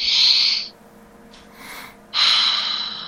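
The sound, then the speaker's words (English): A person takes a slow, audible breath: two long, airy rushes of air separated by a quiet pause of about a second and a half, with no speech. “Taking a breath, right?”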